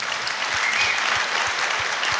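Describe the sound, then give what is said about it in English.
Audience applause from a large crowd at a packed gathering, a dense, even wash of many hands clapping that holds steady and unbroken for the whole two seconds. “So please clap for yourselves.”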